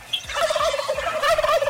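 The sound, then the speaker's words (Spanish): A turkey's gobble is played as a sound effect: a rapid, warbling, quavering call that rises and falls in a throaty rattle, loud and continuous for under two seconds, with no talk over it. “vamos a darle un pavazo porque no nos quiere decir el nombre. ¡Ole, pavo!”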